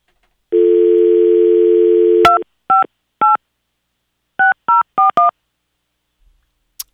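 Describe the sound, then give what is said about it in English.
A telephone number is dialed on a touch-tone phone. A steady dial tone cuts off into several short, loud keypad beeps at varying pitches, spaced in two uneven groups with a pause between them. “Let's call this man up. All right? We need to call him.”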